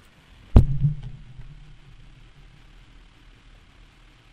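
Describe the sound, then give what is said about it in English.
A hand smacks a microphone once, a sharp, loud, low thud followed by a short boomy rumble that fades into near silence. “The sound of me smacking my microphone.”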